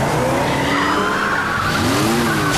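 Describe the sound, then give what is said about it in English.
Van tires skid and screech while pursuing squad cars ram the van and send it spinning out of control. A loud, sustained squeal with wavering tonal bands rides over a continuous engine roar. “The squad cars start bashing into him, making the van spin out of control.”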